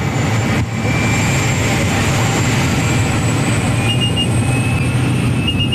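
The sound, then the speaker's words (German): Loud, steady engine roar inside a tiny skydiving airplane crowded with about ten jumpers, a constant dense drone with faint sustained tones above it that never lets up. “Zusammengequetscht wie Sardine in der Büchse hocken wir mit etwa 10 anderen Leuten in farbigen Ganzkörperanzügen in einem munzigen Flugzeug. Es ist dermassen laut, man versteht fast sein eigenes Wort nicht.”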